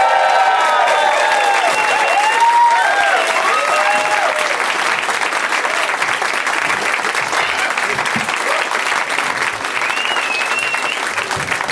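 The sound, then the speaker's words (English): A game-show studio audience gives long applause after contestants are welcomed. Loud, continuous clapping is mixed with scattered whoops and cheers in the first few seconds, then stays steady and dense throughout. “Well, thank you. Long applause.”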